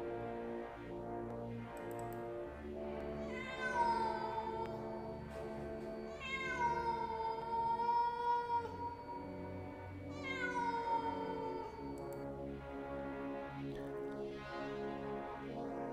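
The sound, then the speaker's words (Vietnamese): A cat yowls strangely in three long, wavering, strongly tonal cries. They are moderately loud and separated by short gaps, over a faint steady background. “Nhưng con mèo của Long đột nhiên gào rú rất lạ lùng.”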